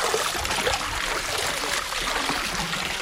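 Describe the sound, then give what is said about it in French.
Laundry being rinsed in water at a wash house gives a continuous sloshing, trickling wash of water, steady in loudness throughout with no distinct separate splashes. “Alors, une fois que le savon a bien été étalé, de le rincer à nouveau dans l'eau.”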